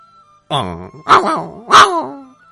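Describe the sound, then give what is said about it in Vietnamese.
A dog whimpering, with three whiny, tonal cries in a row. Each is clear and fairly loud and carries a wavering, nasal pitch. No other sound is heard. “Tiếng nghẹn ngào của đại hắc cắt ngang sự mơ hàng của Lý Niệm Phàm.”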